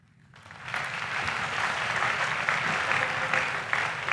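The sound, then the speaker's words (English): A debate hall audience applauds as former Vice President Joe Biden and President Donald J. Trump walk onto the stage. After a brief quiet start, dense clapping swells in quickly and holds at a steady, even level. “The audience here in the hall has promised to remain silent. No cheers, boos, or other interruptions, except right now, as we welcome to the stage former Vice President Joe Biden and President Donald J. Trump.”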